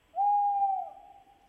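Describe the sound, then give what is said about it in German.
A tawny owl gives one drawn-out hoot, a steady mid-pitched tone that holds for most of a second, then tapers and trails off faintly. It is heard alone. “Ein neues Geräusch. Das würde mir nachts im Wald einen Schauer über den Rücken schicken. Der Waldkauz.”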